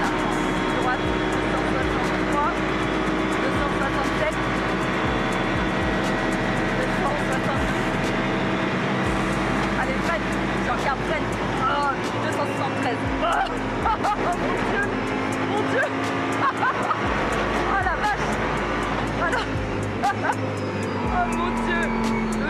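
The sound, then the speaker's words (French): A race car's V10 engine accelerating hard down a straight: a loud, continuous high-revving whine whose harmonics climb in pitch again and again, with a steady rough rumble underneath. “On sent vraiment bien le V10 là. On sent vraiment bien la puissance du moteur.”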